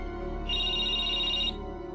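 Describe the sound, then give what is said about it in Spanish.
An electronic telephone ringtone for an incoming call: one sustained, high, two-tone trill of about a second, clear and fairly loud over a low, steady background hum. “Uy, una llamada”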